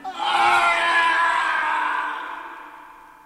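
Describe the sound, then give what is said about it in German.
A man screams suddenly in one long, loud cry. It starts at full strength, holds, then fades out over about three seconds. “Warum schreit ihr plötzlich?”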